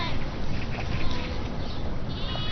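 Sheep bleating from a flock followed daily by a lone shepherd, a few wavering bleats rising out of dense, rough background noise.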